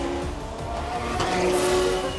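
Race car engines roar on a race course in a loud, steady drone that holds throughout, with no talk.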